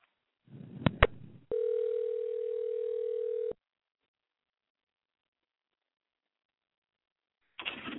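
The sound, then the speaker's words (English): A telephone dial tone as a call is being placed: a couple of sharp clicks, then a steady, even tone that holds for about two seconds before cutting off into silence. “All right, we're dialing, so.”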